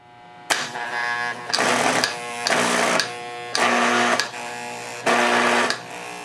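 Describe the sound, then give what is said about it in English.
A pinball machine's flipper solenoid buzzes loudly while the button is held and the flipper bat is forced down, giving a harsh, steady electrical drone in a series of sustained bursts broken by brief gaps. “observe the change in sound as I force the flipper bat down while holding in the button.”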